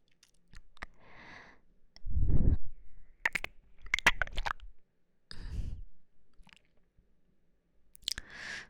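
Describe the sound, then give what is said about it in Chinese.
Popcorn being eaten: several bursts of crisp crunching and chewing with sharp mouth clicks, separated by short pauses of near silence. “真好吃。怎么了？那样看着我。我不就吃了你个爆米花吗？”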